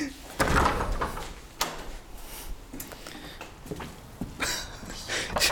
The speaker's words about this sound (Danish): Den blev åbnet hurtigt, den dør.